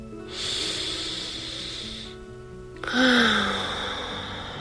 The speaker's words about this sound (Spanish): Ay, ay, ay. Vamos a respirar.